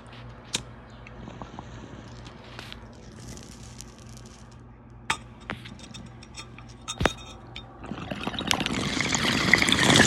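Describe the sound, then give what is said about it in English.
Taking a hit from a smoking bowl: a few sharp, scattered clicks over a low hum, then a rising airy, bubbling rush that grows steadily louder toward the end. “So without further ado, let's take this hit or two.”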